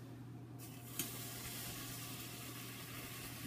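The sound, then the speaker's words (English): Catfish fries in olive oil in a pan, giving a steady, even sizzling hiss throughout with one brief sharp tap early on. No one talks. “I'm turning the olive oil around in the pan to sort of give it a bit of an even coat before placing that in.”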